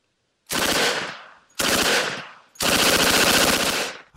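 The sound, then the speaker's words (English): Thompson submachine gun firing in three loud, sustained bursts of rapid automatic fire, each a dense rattle of shots that tails off slightly before the next burst begins. “Do the Thompson submachine gun if you've got it.”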